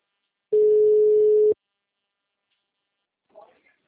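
A call-waiting tone on a phone line sounds as one steady mid-pitched beep lasting about a second, followed by near-silence and a brief faint sound.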